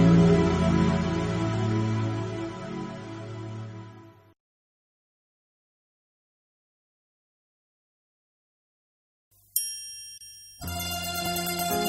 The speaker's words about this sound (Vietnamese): rung động lòng ta, những tiếng chuông chùa rung động lòng ta.